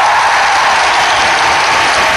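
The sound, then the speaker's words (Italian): Applause for the Cardinal Archbishop of Madrid, with the Pope joining in, forms a dense, even wash of many hands clapping that holds steady and fairly loud throughout. “Il Papa applaude al Cardinale Arcivescovo di Madrid.”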